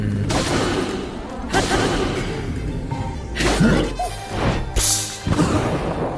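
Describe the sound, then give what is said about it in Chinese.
Sword strikes land in a Lynel battle in a Zelda game, heard as heavy crashing impacts and thuds at several points, with percussive game music in the mix. “您能听到它那个打击乐是在我挥剑打中敌人之后啊”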